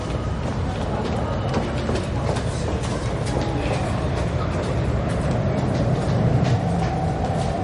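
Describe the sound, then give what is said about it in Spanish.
Metro train rumbling through an underground station, a loud, steady roar with rail clatter that holds without a break from start to finish. “Claire camina por la calle. Baja al metro por una escalera.”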